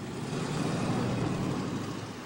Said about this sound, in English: I like how he just drives away.